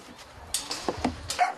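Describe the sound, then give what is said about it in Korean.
Puppies barking among some 150 rescued dogs saved from euthanasia: a few short, high yaps and yips in quick succession, fairly faint. “생명의 은인인 줄 아는지 그녀를 엄마처럼 따르는 강아지들.”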